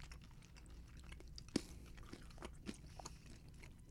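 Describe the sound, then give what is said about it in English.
Chewing of lychee-flavoured Skittles candy: faint, moist crunching and clicking bites, with one sharper crunch standing out among many small mouth sounds. “Oh, that's one of my favorite bags of Skittles I've ever had.”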